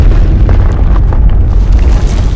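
A wall being smashed and torn apart by a powerful blow: a loud, continuous low booming crash with a heavy rumbling roar that fills the whole moment.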